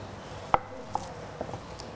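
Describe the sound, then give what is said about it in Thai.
A knife finely slices tightly rolled kaffir lime leaves on a board, a few sharp, distinct chopping taps spaced unevenly and fairly quiet, with no talk. “นะม้วนให้แน่นนะคะแล้วก็ซอยให้ละเอียดเล็กเราจะมีใบมะกรูดซอยแล้วก็จะมีผักชีฝรั่งนะคะซอย”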